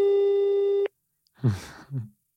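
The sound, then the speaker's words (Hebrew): A steady telephone tone on a call holds for nearly a second and then cuts off abruptly, followed after a short silence by a couple of brief muffled sounds. “רגע, זה מחייג?”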